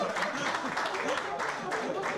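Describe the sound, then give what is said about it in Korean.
Diners clap steadily to welcome a first-time Korean guest at a southern Portuguese shepherd's meal, a dense, even patter that runs the whole time with voices mixed in. “제가 처음 먹는다고 하니까 이렇게 박수도 쳐주시네요.”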